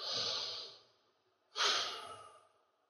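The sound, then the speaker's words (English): A deep breath taken during a guided breathing pause in a spiritual talk: two long, airy breaths, each swelling then fading, separated by a short silence, with no talk over them. “So let's all get a big breath here.”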